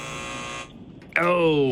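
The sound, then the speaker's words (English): A quiz buzzer answers a trivia question with a single harsh, buzzy electronic tone that cuts in abruptly after a short lull and holds loud and steady to the end. “Buzzer.”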